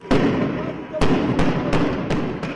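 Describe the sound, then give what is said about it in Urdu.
Tear gas shells fired by the Israeli army in Bethlehem during Palestinian protests, heard as a few sharp, loud bangs at irregular intervals over a dense, noisy background with voices. “یہ آنسو gas کے shell اسرائیلی فوج بیت اللحم میں fire کر رہی ہے۔”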